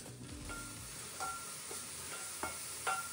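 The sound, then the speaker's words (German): Oat flakes and oat bran roasting in a pan make a faint, steady sizzling hiss, broken by a few light scraping and clicking strokes as they are stirred. “Oder es gibt pikantes Müsli mit kernigen Haferflocken und Haferkleie. Rösten, rösten, rösten.”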